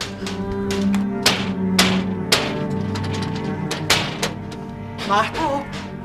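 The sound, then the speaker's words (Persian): A lock is broken open with many sharp, heavy knocks and thuds at irregular intervals. Voices speak between and over the blows. “دارن قفل رو میشکنن.”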